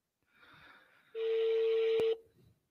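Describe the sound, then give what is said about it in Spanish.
A telephone ringing gives one sustained, steady-pitched ring tone lasting about a second, loud and alone, with faint low sounds before and after. “Está timbrando, está timbrando.”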